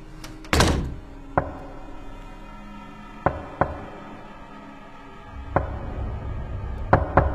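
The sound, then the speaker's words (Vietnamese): Sharp knocks on a room door on a cold night. Several single hard raps come at uneven intervals, with the first one the loudest, over a quiet low background. “Có tiếng gõ cửa vang lên trong đêm lạnh toát.”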